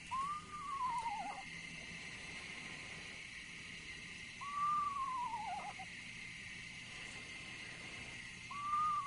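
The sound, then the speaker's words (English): A screech owl calls three times at night, about four seconds apart. Each call is a faint whistled note that rises slightly and then slides down, over a steady background hiss. “We promised the screech owl sound, the sound you hear at night that may alarm you and frighten you to some degree.”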